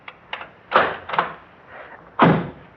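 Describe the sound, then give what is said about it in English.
A lock is unlocked in a few separate clicks and thunks, irregularly spaced, with the last one loudest. “unlock your lock first”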